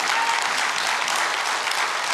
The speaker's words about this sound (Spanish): ¿Por qué no le damos al Señor un aplauso?